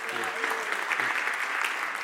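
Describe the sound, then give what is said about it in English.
An audience applauds a volunteer coming up to share in a group session. Dense, steady clapping fills the whole clip, and a voice is briefly heard beneath it near the start. “Please give her a round of applause.”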